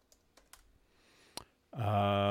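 A few sparse keystrokes as a search is typed on a computer keyboard, isolated quiet clicks spaced apart, then a loud sustained tonal sound abruptly takes over.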